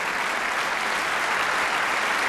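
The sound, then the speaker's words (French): A concert audience applauds an orchestra after Khachaturian's Masquerade waltz at a concert held before the national holiday. The clapping is dense and steady, a continuous loud patter with no pauses. “Sous les applaudissements du public venu nombreux assister à ce concert en prélude à la fête nationale.”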